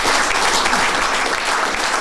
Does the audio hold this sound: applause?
yes